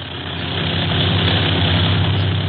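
Propeller engines of a China Clipper flying boat in flight several hundred feet up, heard as a steady, loud, low droning hum with an even rumbling texture and no voices.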